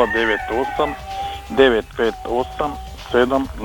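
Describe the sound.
Rooster crowing in a quick series of loud, wavering harmonic calls, about eight bursts separated by short gaps, with thin steady tones in between.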